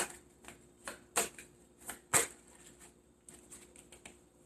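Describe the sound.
Tarot cards being shuffled and drawn: many soft, papery riffles and flicks in an uneven rhythm, with a couple of sharper, louder snaps early on and no voices.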